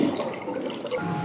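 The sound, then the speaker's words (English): Amplified, gurgling water of the River Thames in a small chamber: a steady, loud, churning wash with bubbling texture throughout. “We're kind of in a little chamber with the sound of the River Thames, I think. Has it been amplified? It's normally not this loud, is it?”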